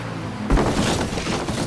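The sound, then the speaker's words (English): A forklift crashes into a giant pile of boxes. A sudden heavy thump is followed by a loud, rumbling clatter that keeps going to the end. “I drove into a giant pile of boxes.”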